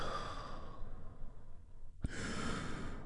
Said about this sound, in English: we do that by taking a big, deep healing breath together. Here we go. And release.